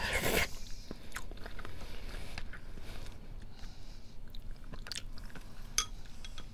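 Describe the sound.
Biting and chewing on a collagen-rich fish eye taken from a hotpot: one sharp crunch at the start, then soft, close chewing with faint wet clicks and little else.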